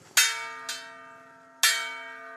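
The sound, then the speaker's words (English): Three strikes of a brass bell, rung by the Munduruku chief in an indigenous territory in Mato Grosso to call a community meeting. Each clang is bright and metallic and leaves a sustained, slowly decaying ring. “At a 400-square-mile indigenous territory in Mato Grosso, the chief of the Munduruku tribe rings a brass bell to announce a community meeting with Paulo Nunes.”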